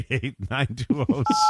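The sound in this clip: Telephone keypad tone from a caller on a phone line, a single steady two-pitched beep near the end, sounding under a voice that talks throughout.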